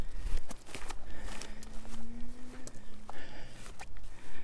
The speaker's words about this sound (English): walking uphill across a large field.